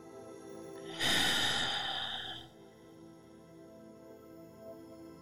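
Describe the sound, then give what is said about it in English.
A single long, deep breath during a guided swimming meditation for anxiety, loud and breathy for about a second and a half, then fading into quiet. “So let's begin. We're going to start with a big deep breath.”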